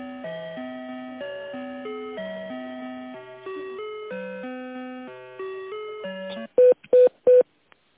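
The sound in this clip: A telephone call being put through to another person on a business line: an electronic melody of stepping tones plays, then three short, loud beeps follow in quick succession.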